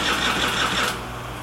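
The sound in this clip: A brief buzzing crank as someone tries to start an '86 Spree scooter engine with no gas in it, loud and rough for about a second before cutting off abruptly into a quieter hum.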